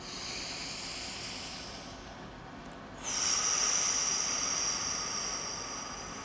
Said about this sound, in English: take a deep breath.